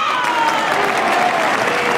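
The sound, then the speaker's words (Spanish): Dense, continuous audience applause during a spoken talk, holding an even, fairly loud level throughout with some voices mixed in. “No sé para qué aplaudir, pero bueno.”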